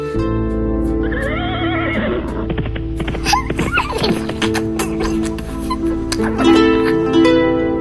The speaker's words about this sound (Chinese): 妹妹高兴地跨上马，蹦蹦跳跳地向前奔去。